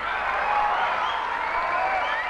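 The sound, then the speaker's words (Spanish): Audience applause at a live concert at Teatro Santa María in 1998: a dense, steady wash of clapping and crowd noise that holds at an even level for the whole stretch. “Un aplauso muy grande para León, ¿no?”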